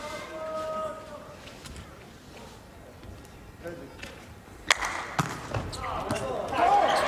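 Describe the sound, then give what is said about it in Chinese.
A volleyball strikes the net and then bounces on the ground during a men's volleyball match, heard as two sharp thuds in quick succession under continuous commentary and crowd noise. “再看这球先落了网袋，然后又弹在地上”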